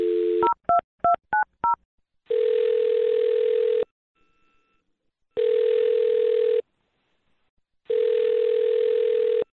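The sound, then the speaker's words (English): Telephone dial tone, then a quick run of keypad dialing beeps, then three long, steady ringing tones separated by silent gaps as the call connects. No voices. “I'm going to dial this one number right now.”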